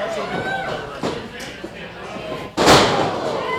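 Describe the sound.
A wrestler's body slams onto the ring mat during a professional wrestling match: one loud, sudden thud that cuts through steady background voices, with a smaller knock a little earlier.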